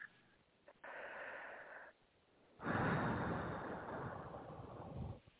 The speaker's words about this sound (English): Taking a deep breath.